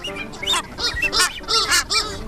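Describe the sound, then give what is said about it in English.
Seabirds including red-tailed tropicbirds, masked boobies and noddies call at a noisy colony. Harsh, honking, overlapping cries repeat continuously in a loud chorus. “You've got the diurnal species calling in the daytime, red-tailed tropic birds, masked boobies,”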